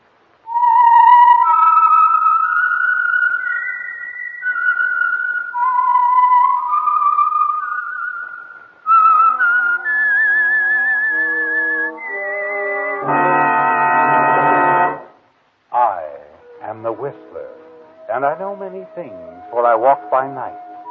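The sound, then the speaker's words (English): A whistled signature tune for a radio program, a melody of clear gliding notes over several phrases, followed by sustained chords and a stretch of fluttering, wavering tones. “the signal to listen for is this whistle that identifies the Signal Oil Program, The Whistler.”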